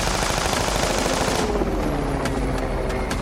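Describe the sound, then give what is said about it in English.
Rapid gunfire from a helicopter with bullets hitting the ground, heard as a loud, unbroken barrage of dense crackling shots with no pauses. Its brightness drops partway through. “I could hear the helicopter getting closer. I jumped behind a stalled SUV as bullets hit the ground around me.”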